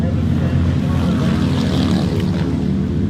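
Speedway motorbikes race at Ruapuna Speedway in Christchurch, their engines blending into a steady, loud, buzzing drone that never lets up.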